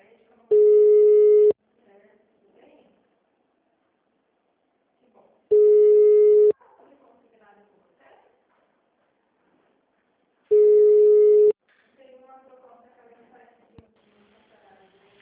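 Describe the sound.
Unanswered telephone ringback tone: three long, steady tones repeat at even intervals, with faint voices in the quiet gaps between them.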